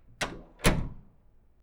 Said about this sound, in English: Go, open the doors and set our people free.